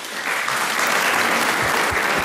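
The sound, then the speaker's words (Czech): Audience applause during a Czech entertainment talk show: a dense, steady wash of many clapping hands that starts at once and holds an even, fairly loud level to the end. “Tleská i Jiří Suchý, mistře legendo.”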